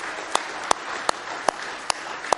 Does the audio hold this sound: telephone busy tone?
no